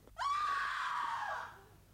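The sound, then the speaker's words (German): Women scream in a dramatized scene: a single loud, high-pitched cry that rises sharply, holds for over a second with a slight downward drift, then fades out, with no talk alongside it. “Was für Geschrei ist das? Geschrei von Weibern, teurer Lord.”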